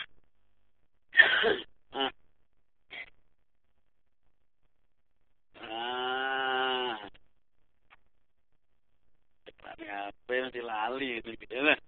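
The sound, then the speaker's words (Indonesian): A few short, sharp coughs and throat clearing from an itchy throat, separated by silence, followed by a longer held voiced sound and then speech. “Istirahat ini mulai gatal-gatal. Nah, batuk.”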